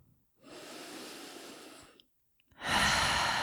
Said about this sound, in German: Nimm hier ein paar tiefere Atemzüge ein und aus. Gern durch den geöffneten Mund ausatmen und mach das noch zweimal.